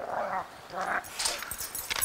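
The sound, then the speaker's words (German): Wolves at daily feeding time, hand-fed by a keeper, give whimpers and short high yips in several bursts at moderate loudness, with no talk. “Es findet täglich Wolfsfütterung statt. Also ich füttere zuerst mal die Wölfe.”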